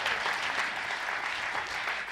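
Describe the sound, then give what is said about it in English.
Audience clapping to welcome a panel at a church weekend event, a steady, even patter of applause lasting the whole moment. “I want you to actually put your hands together and welcome our incredible panel today for our Love Works weekend.”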